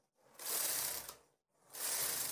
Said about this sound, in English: I'm working on a domestic knitting machine with a ribber attachment and connecting arm. I have yarn threaded up at the back here through my tension mast, so I'm just going to cast on.